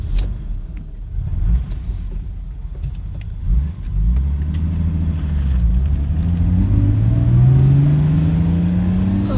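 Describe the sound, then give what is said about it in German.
Mercedes car engine starting and driving off: a low, rough engine rumble that turns into a smooth drone, its pitch climbing steadily as the car accelerates. “Altmaier ließ Buckys Mercedes an.”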